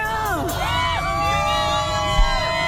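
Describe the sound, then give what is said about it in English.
Crowd of climate protesters screaming and whooping as an activist is arrested: many overlapping high voices rise and fall in loud, continuous shouts, with one brief thump near the end. “the screaming at the end is because one of the people's getting arrested”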